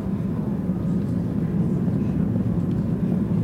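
A steady, low droning rumble of an airplane runs unbroken throughout, with no voices and no changes in level.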